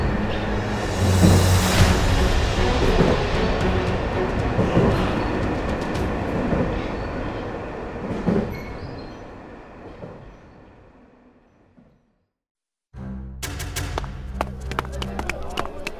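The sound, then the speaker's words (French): An old, greyish, already crowded train moves slowly and noisily along the track. A heavy rolling rumble with clattering fades out, and after a short silence more clattering begins. “Un vieux train grisâtre déjà bien rempli s'avança nonchalamment et bruyamment sur la voie.”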